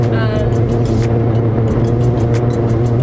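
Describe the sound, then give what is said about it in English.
A car drives along the road toward Atlanta, Georgia, giving a loud, constant low engine and road rumble with a regular pattern of light high clicks or thumps riding on top. “And then moving forward, we are now driving to Atlanta, Georgia”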